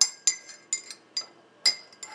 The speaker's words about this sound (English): that is why I am testing right now as I stir my coffee